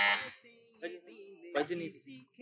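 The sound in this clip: A quiz buzzer sounds at the start of a religious poetry-recitation quiz in a brief, loud, bright burst, then fades quickly as a man talks over the rest.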